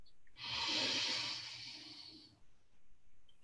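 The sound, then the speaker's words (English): A single long, deep breath taken at the start of a guided relaxation session. It is an airy, breathy rush that swells quickly, holds for about two seconds, then fades, with a soft low hum underneath and no talking. “So what I'd like to do is begin by taking a deep breath together.”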